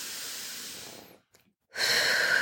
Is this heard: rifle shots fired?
no

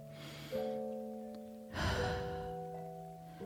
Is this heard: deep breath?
yes

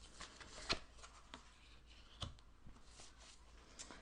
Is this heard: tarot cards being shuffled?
yes

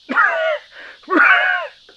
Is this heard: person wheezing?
yes

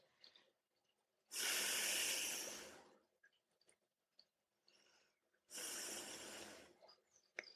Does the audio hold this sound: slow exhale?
yes

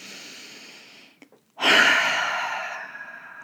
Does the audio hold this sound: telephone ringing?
no

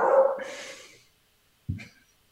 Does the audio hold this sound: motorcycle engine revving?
no

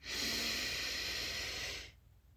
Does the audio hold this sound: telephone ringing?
no

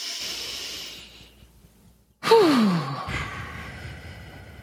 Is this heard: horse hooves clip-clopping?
no

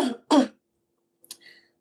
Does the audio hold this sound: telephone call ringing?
no

